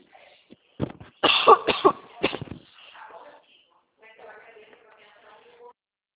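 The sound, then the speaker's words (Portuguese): Coughing after choking: a burst of several harsh, loud coughs in quick succession, followed by quieter, softer throat sounds and faint talk. “Marcela, desculpa, tá? Eu engasguei.”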